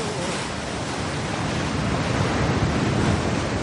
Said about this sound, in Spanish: Las olas continúan golpeando sus cuerpos.